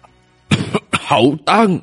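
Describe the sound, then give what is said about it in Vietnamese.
A voice imitates dry coughing: a few short, hoarse, rasping bursts in quick succession, loud and alone, in a night-wind setting. “Trong gió đêm, Tuân Bình Tử ho khan hai tiếng, giọng nói mang theo một sự phức tạp khàn khàn.”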